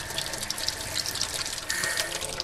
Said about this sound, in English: We have fully functional water.